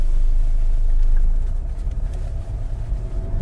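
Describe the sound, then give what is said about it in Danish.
A car drives toward a town hall, its engine a steady low rumble that eases slightly partway through and then continues evenly. “Så kører vi ud til Rådhuset.”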